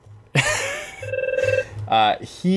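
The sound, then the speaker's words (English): A telephone rings with an incoming call, a trilling, pulsing electronic ring mixed with other bright tones and voices. “Guys, we said hold all the calls. We have a caller.”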